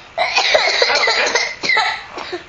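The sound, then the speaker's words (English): A big cough into a covered mouth: one long, rough, loud burst is followed by a few shorter coughs, heard without talk. “That was a big cough.”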